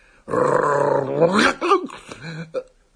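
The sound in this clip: A dog growls in a long, sustained low tone that breaks into shorter rough snarls and yelps as it is approached and offered a hand.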